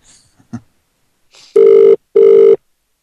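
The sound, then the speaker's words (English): An outgoing phone call to a fast-food restaurant in Ireland rings back with two long, steady mid-pitched tones, evenly spaced and loud. A few faint, soft sounds come before them. “Okay, so we're going to call KFC in Ireland.”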